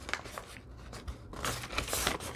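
Paper being folded backwards while inking and weathering decorative writing paper: a few crisp crinkling and rustling bursts that grow louder toward the end, with no voices.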